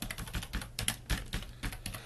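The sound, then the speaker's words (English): Keys clatter on a computer keyboard as a blog post title is typed: many quick, faint clicks in an uneven rhythm, heard alone without talk. “You just type your title,”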